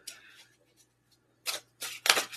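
Tarot cards are shuffled, making a few soft, quick riffling bursts that come close together near the end after a quiet stretch.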